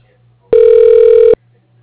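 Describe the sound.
A single loud, steady electronic telephone tone sounds as a call is transferred to voicemail. The mid-pitched beep holds evenly for under a second and stops abruptly, with near silence before and after.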